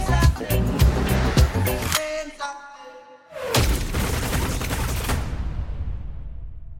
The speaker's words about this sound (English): Is that like a machine gun scene?